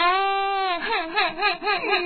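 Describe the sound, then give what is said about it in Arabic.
A child cries alone, starting with a steady drawn-out wail. The wail then breaks into wavering sobs that rise and fall in pitch. “نعم بكاء الأطفال. الأطفال عندما يريدون الحصول على شيء.”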